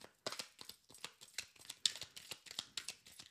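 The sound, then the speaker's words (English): Playing cards handled and drawn from a deck, tarot style: many quick, crisp papery snaps and rustles in an uneven rhythm with short gaps between them, moderately loud and with no talk. “let me go ahead and draw a card. I should do it like tarot. Yeah, I'm going to do it like tarot.”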